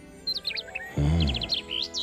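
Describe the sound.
Bird chirping while perched on a statue of a winged lion: a few quick, high tweets in two clustered bursts, with a brief lower tonal sound between them.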